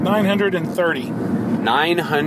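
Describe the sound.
Steady road noise from a car driving at 4 a.m. on the way back from Texas, running continuously beneath a man talking throughout.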